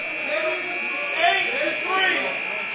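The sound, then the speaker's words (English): A prison alarm buzzer set off by an officer at San Quentin drones as a continuous, steady high buzz beneath a person talking throughout. “again, an officer somewhere in San Quentin has triggered the alarm.”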